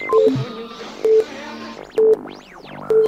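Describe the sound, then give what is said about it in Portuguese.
Time signal tone from a Brazilian radio station on the tropical shortwave band: a few short, steady, mid-pitched beeps about a second apart, loud over a busy backdrop of other tones and swooping whistles. “Atenção para o toque de 5 segundos. 5 segundos.”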